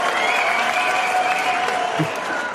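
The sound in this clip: Audience applause sound effect played from a Stream Deck: steady, dense clapping with crowd noise that holds at an even level throughout.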